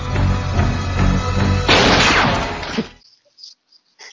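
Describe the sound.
A rifle gunshot in the film Crocodile Dundee, during a kangaroo hunting scene, cuts across music as a single loud blast with a rough, noisy tail, then drops to near silence.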